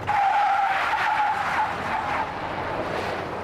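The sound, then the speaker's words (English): Tires skid on a new electric Hummer being test driven in Michigan, a loud, continuous high squeal that holds steady and then eases slightly toward the end. “Here he is in Michigan testing out a new electric Hummer.”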